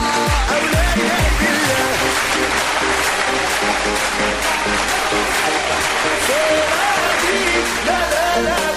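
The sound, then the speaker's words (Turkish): Sustained audience applause at a Turkish comedy talk show, a thick, even roar of clapping that stays loud throughout, with voices calling out over it. “Sonra da bir alkış efendim. Bizi araçlarında bu saatlerde kulak verenlere gelsin.”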